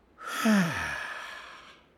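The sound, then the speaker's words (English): A slow belly breath is exhaled through the mouth during a breathing exercise: a soft, breathy sigh with a brief voiced edge that falls in pitch, swelling and then fading out gently. “putting your hands on your belly and breathing slowly in through your nose. Then breathe slowly out through your mouth.”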